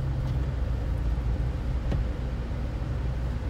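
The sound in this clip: A car driving through a blizzard gives a steady, dense low rumble of engine and road noise that holds evenly for the whole stretch, with no voices.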